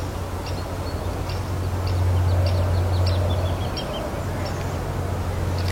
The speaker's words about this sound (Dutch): Dat was een boomleeuwerik die blijkbaar het voorjaar een beetje in de bollen heeft. Want die was een beetje aan het zingen. Die er voorbij vloog.